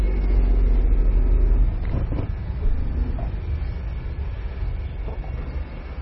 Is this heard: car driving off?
yes